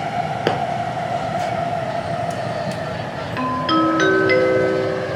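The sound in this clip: Metro train arriving at the terminal station of a Chinese urban rail line: a steady rolling rumble with a sustained motor whine, followed in the final seconds by a run of bright electronic chime tones.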